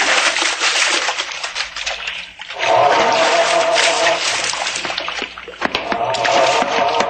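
Water splashing and sloshing from a person swimming an overhand side stroke, a loud continuous rushing wash that briefly dips twice before surging back.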